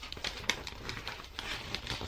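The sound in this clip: Soft papery rustles and crinkles as a sheet of HVS paper is folded in half in a classroom, a few faint, brief scrapes over quiet background noise.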